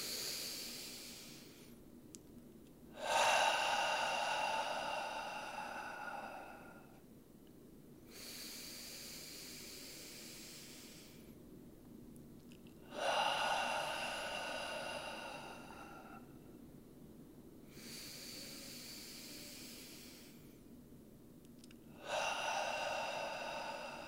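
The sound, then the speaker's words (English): Three slow, deep breaths drawn in through the nose. Each is a loud, airy inhale lasting a few seconds, followed by a longer, softer exhale, with no talking. “And as we take three breaths together, we'll sink into that oneness. In through the nose.”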